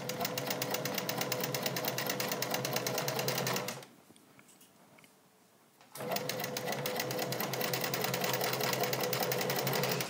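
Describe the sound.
A sewing machine stitches binding onto the edge of a negligee in rapid, even bursts. It runs steadily, pauses for about two seconds, then resumes at the same brisk rhythm.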